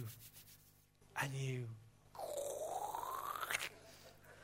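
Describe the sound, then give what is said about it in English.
A hand plane shaves a thin sliver, about a thousandth of an inch, off a wooden board: a short rasping stroke, then a longer scraping stroke with a rising whistle-like tone. Both are fairly faint, and a voice speaks briefly. “That's the sound of a shaving, a thousandth of an inch coming off a board.”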